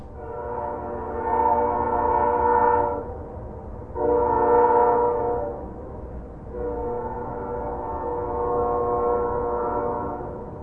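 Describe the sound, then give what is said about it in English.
A train horn sounds late at night over downtown Flagstaff in cold, still air, rolling around the mountains: three long, steady chord-like blasts, the last one the longest, with brief gaps between them. “The trains sound best to me here on Mars Hill, overlooking downtown Flagstaff. Late at night, when the air's cold and still, the horn rolls around the mountains.”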